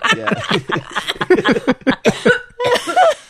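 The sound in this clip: Coughing from a tickle in the throat comes as a rapid run of harsh, voiced bursts. Chuckling sounds are mixed in, and no words are spoken.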